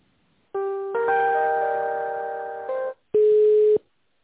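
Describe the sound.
Telephone line tones while a call is being transferred: a long, steady electronic chord of several pitches that gradually softens, then a short pause and one louder, pure beep.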